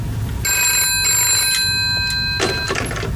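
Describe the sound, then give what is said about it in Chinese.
A telephone rings with a steady, bright electronic tone that holds for about two seconds and then stops, leaving a few faint clatters behind. “电话。”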